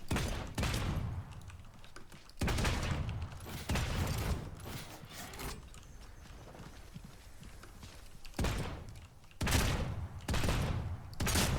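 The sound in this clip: Weapons fire in a video game as several loud bursts of rapid shots, each burst split by a quieter gap.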